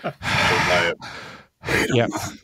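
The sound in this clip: A voice imitates heavy breathing: a few loud, drawn-out, breathy exhalations like sighs and gasps, separated by short pauses, with the last one partly voiced.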